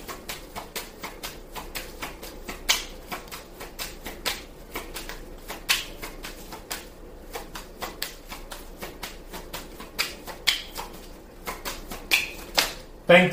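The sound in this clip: Playing cards are drawn and handled from a deck, making many light, dry snaps and flicks in an uneven rhythm, quiet overall, with people talking underneath.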